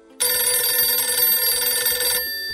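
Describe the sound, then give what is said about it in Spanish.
A telephone rings with an incoming call: one loud, bright, sustained electronic ring lasting about two seconds, steady in pitch and heard alone before it cuts off. “Tenemos una llamada.”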